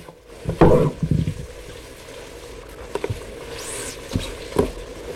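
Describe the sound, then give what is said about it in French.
Rabbit stew, civet de lapin, simmering in a pot in a small historically Occitan village in 1960: a low, soft bubbling hiss runs throughout, broken by a few louder clinks and knocks. “On y entend, comme une douce mélodie, un civet de lapin cuire en arrière-plan.”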